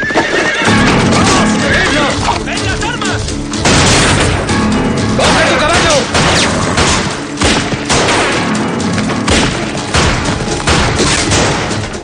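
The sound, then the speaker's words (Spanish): Horses gallop away as riders flee a canyon in a 2007 Western action film: loud whinnies and pounding hooves mix with bursts of gunfire and booms in a dense, chaotic stretch. “Evans y los demás huyen del desfiladero al galope.”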